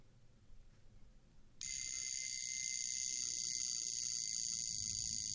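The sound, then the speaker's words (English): A vintage mechanical alarm watch rings with a loud, steady, high-pitched buzzing that starts abruptly after a short stretch of low rumble and runs without pause to the end. “Yeah, that's my alarm watch. But, my mechanical alarm watch.”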